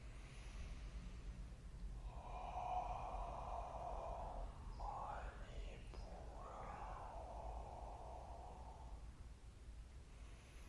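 Deep inhalation during a kriya breathing exercise: a faint, airy breath drawn in steadily over several seconds with a short break midway, over a low background hum.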